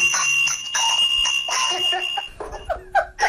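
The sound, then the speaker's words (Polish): A school bell rings with a shrill, steady electric tone in loud bursts for roughly two seconds, then breaks off into scattered brief sounds. “Dzwonek.”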